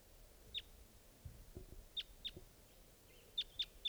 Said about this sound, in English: It's flying around.